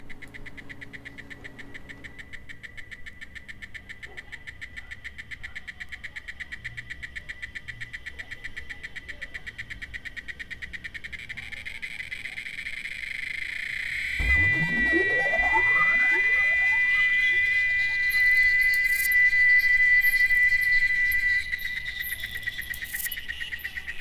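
Crickets and other orthopteran insects form a dense, pulsing high-pitched chorus that runs steadily throughout, joined partway by smooth gliding tones that sweep upward and hold.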